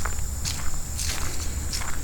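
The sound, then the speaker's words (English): Footsteps walk along a nature trail towards a bird blind, a few crunching steps at an unhurried pace over a constant high insect buzz, with no talking. “Alright, so I'm sitting here, walking towards the blind.”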